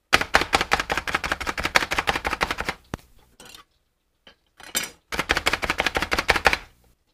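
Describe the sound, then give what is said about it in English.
A food chopper cuts onions into chunks with two rapid runs of loud, dense chopping thuds. A short pause between them holds a few softer clicks, and no one speaks. “Just chops it up just into little chunks. Boom. Wow, onions are done.”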